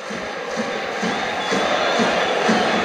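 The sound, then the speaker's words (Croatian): Dinamo football supporters singing and cheering as they celebrate with the players, a continuous crowd roar with a rhythmic chanted pulse that grows slightly louder partway through. “I dalje traje pjesma ovdje. Dinamovih navijača, slavlje s Dinamovim igračima.”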